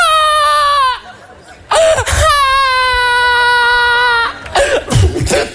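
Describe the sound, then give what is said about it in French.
A baby cries loudly in two long, high-pitched wails separated by a brief gasping pause, then breaks into choppy sobs and coughs at the end. “Ça va, arrête de pleurer.”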